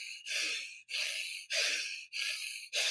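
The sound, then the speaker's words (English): Rhythmic breathing in and out through the nose, about five quick, airy hissing breaths in even succession with brief gaps between them. The breaths are faint and steady, with no talking. “So for 60 seconds, you breathe in and out the nose.”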